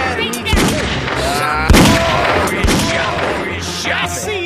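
Gunfire in a video game during an ambush: a few sharp, loud shots burst out of a dense, busy wash of game sound that continues steadily throughout.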